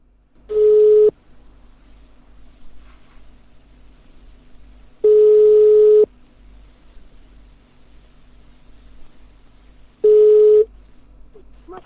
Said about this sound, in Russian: Набираю на номер